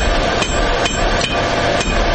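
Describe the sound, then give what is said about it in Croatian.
A blacksmith's hammer strikes red-hot iron in a small forge in Tešanj, Bosnia and Herzegovina. Sharp metallic blows fall at a steady pace of roughly two per second over a dense, loud, constant din. “udar čekića po usijanom željezu odjekuje i danas”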